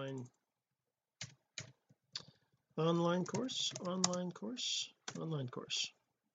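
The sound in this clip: Typing on a computer keyboard: a few sharp, separate key clicks, then a long stretch where a voice is heard over the tapping.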